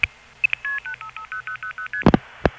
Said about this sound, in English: Now on my east side line, you can hear it go out on the Forest Hills Crossbar Tandem.